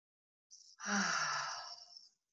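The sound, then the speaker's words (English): A group takes a big, deep breath in together, heard as one long, airy, hissing breath lasting about a second and a half after a short catch, with no talk. “I invite everybody to just take a big, deep breath in.”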